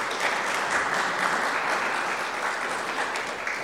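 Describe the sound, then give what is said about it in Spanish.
Sustained applause for the Lord fills a bilingual Spanish-English church service: dense, even clapping from many hands, steady and fairly loud throughout, with no voices standing out. “Aplauso al Señor.”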